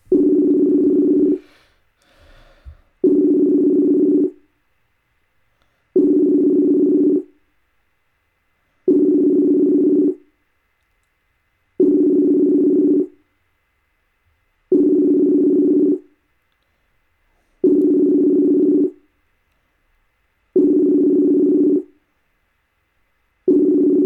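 A Messenger call ringing tone plays as steady, low-pitched beeps, each about a second long and repeating every three seconds or so. There are nine in all, with a brief noisy click just after the first.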